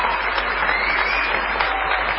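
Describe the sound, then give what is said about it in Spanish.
An audience ovation for a performer at an evening show: loud, dense clapping that stays steady and unbroken throughout, with no talking over it. “vamos a aprovechar esas presencias para propinarle a Patricio Barton una ovación.”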